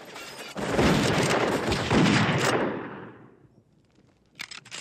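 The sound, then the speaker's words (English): A door is blown open with a sudden loud blast, followed by a dense roar of crashing debris that holds for about two seconds and then fades, with a short sharp knock shortly after. “Chavez steps across the hall and up the stairs as the door's blown open again.”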